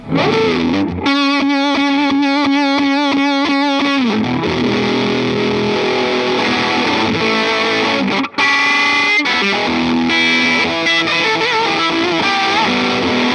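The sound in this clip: Electric guitar through a loud, spitty fuzz pedal, a black unit with gold knobs, chugs a run of rhythmic distorted chord stabs, then shifts into ringing, saturated notes and riffs where the individual strings stay articulate under the fuzz.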